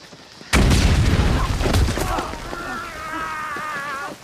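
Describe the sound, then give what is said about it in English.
A hidden landmine goes off underfoot in a forest: a sudden loud blast after a quiet moment, then a rough, rumbling decay, followed by a strained, pained voice. “As they mount a rise, Lewis treads on a hidden landmine.”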